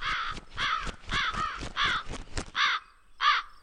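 Two ravens give harsh, raspy caws in a quick run of many calls, then two louder single caws with a short gap between them.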